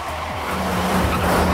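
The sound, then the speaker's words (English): A car speeds through a stop sign in traffic: a loud, continuous engine drone with skidding tire squeal throughout the brief burst. “The car speeds through a stop sign, leaving a tangle of traffic in its wake.”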